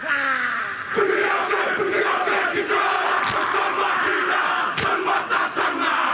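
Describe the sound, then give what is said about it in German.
A large crowd performing a Maori haka war dance, many voices chanting and shouting together in a loud, continuous roar punctuated by a few sharp accented shouts. “Die Ureinwohner Neuseelands, die Maori, haben einen Kriegstanz, der heißt Haka. Dabei reißen sie die Augen weit auf, strecken die Zunge weit heraus und machen solche Geräusche.”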